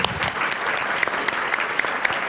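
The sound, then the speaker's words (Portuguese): An audience bursts into dense, lively applause after a recitation of a Camões sonnet. Scattered sharper claps stand out above the steady mass of clapping. “Salve Camões, agora merece palmas.”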